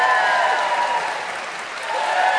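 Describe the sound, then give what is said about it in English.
Studio audience applause, a steady dense wash of clapping that stays loud throughout, dipping slightly near the middle before swelling again, with no talk over it. “was raise your hands and you get instantaneous applause from the audience”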